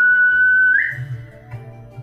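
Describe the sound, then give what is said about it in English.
A person whistles one sustained, steady high note lasting under a second that flicks upward at its end, followed by a faint low rumble. “And I'll whistle back.”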